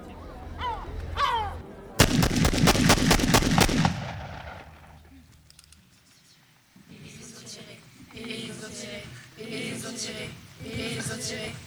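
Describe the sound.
Gunfire follows a shouted order to fire at a crowd throwing stones: a rapid burst of many sharp, loud shots lasting about two seconds. Voices are heard before the burst and again afterward.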